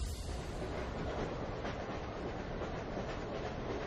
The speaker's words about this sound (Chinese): 我们两人当即买了最近一班火车，奔赴烟台。